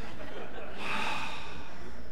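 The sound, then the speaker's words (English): A group draws a deep breath together during a Bible teaching, one loud, airy inhale that swells in the middle and fills the short moment. “Okay, now everybody take a breath with me. I haven't taken one for 20 minutes, so.”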